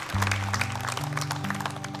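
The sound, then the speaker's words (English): A church audience gives a hand clap of praise to the Lord. Scattered, fairly faint claps patter over sustained musical tones that shift pitch a few times. “Would you give the Lord a hand clap of praise for so many hands that were raised?”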